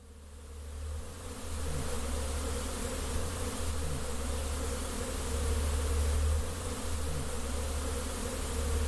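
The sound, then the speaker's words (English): Honeybees buzzing at a backyard beehive in East Vancouver as the colony comes out of winter, a steady, dense drone over a low hum that swells slightly and holds without pause. “With all this talk about bees, I thought it was only right that I get my hands in a hive.”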